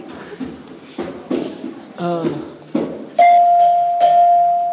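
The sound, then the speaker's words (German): A bell is struck and rings out in a bright, steady, sustained tone to the end, after a few soft knocks and a quick rattling ripple of higher tones. “Sie haben wunderschöne Glocken.”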